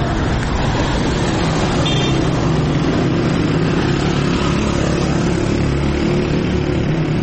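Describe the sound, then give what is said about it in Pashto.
Steady traffic noise from cars and motorcycles on a 103-kilometre potholed, rough road between Kandahar and Uruzgan. A continuous low engine rumble and road roar holds at a constant level throughout, with no speech. “دغه 103 کیلومتره لاره چې د کندهار او اورزګان ترمنځ پرته ده، ورباندې هر ورځ په سلګونه غټه او واړه موټر تګ راتګ کوي”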